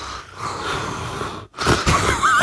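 Wheezy, heavy breathing: two long, loud, rasping breaths separated by a brief pause, with no talking.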